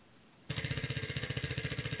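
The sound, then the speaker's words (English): A spinning prize wheel gives rapid, evenly spaced ratcheting clicks. They start abruptly and continue at a fast, steady rate until the end. “are you ready to spin the wheel, Robin? Hopefully you won't get the six-pack of brand-new hoof picks, but we'll have to see. All right, here we go.”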